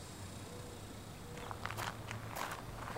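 Footsteps of someone walking through desert terrain, a series of soft, scuffing steps that become more distinct in the second half, over a steady low hum.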